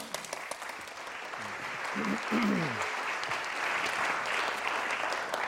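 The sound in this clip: Audience applause welcoming a speaker to the stage: faint at first, then swelling after about two seconds into steady, sustained clapping that carries on to the end, with a voice heard briefly in the middle.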